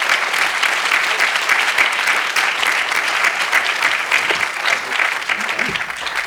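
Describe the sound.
Loud, sustained applause from a conference audience welcomes a young speaker to the stage, a dense, continuous crackle of many hands clapping at an even level throughout.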